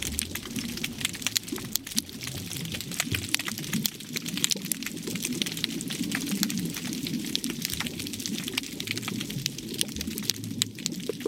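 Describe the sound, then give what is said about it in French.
Sea urchins crackle underwater off Djengen with dense, irregular clicks and snaps. These faint, rain-like ticks run continuously over a soft low murmur of the sea. “Les sons que tu entends là, c'est ceux des oursins. Ce sont les oursins qui crient comme ça”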